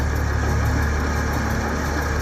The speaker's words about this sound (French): Bien, on va voir si ça démarre. L'essence arrive. Très bien, essaie de démarrer.